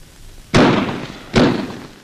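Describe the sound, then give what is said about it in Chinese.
Two sharp, loud blasts from fuse-detonated explosives on barbed wire at an enemy blockade line at night, each a sudden bang trailing off into a rumbling decay, the second following under a second after the first, with no voices. “导火索很快被引爆了，敌人也开始疯狂的射击”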